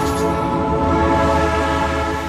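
A historic train gives a loud, steady, tonal drone, like a sustained horn or engine hum, that holds unbroken throughout with no pauses.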